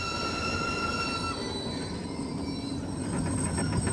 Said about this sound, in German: Der Zug fährt ab.